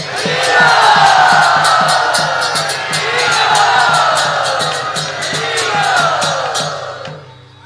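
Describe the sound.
A crowd loudly cheering, whooping and shouting to welcome a spiritual leader at an ISKCON gathering, with a steady rhythmic beat pulsing underneath the roar until it fades at the end.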